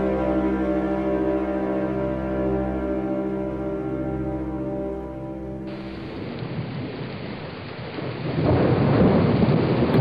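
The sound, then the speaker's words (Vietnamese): Heavy rain and strong wind from a storm make a dense, steady hiss that starts after a sustained droning musical tone and swells louder toward the end. “Trời mưa to gió lớn như thế này mà phải đi vào nghĩa địa, sợ quá anh bạn.”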